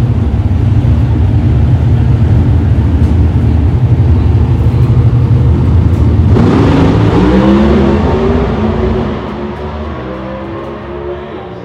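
A loud, sustained engine roar comes from a drag racing car making a high-speed run of about 211 mph at an NHRA event. The dense roar holds steady, changes character partway through, then eases somewhat near the end.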